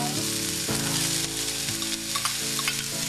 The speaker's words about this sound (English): mushrooms. And let them saute until they get a little brown.